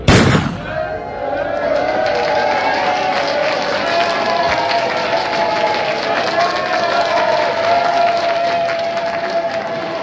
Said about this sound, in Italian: Lo start della North Cape è con una pistola, per cui sono tutti sulla linea di partenza e poi c'è una persona che spara e si parte tutti in questo modo.